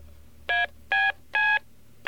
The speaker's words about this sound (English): They sound like touch tones, and in fact they're very closely related to touch tones.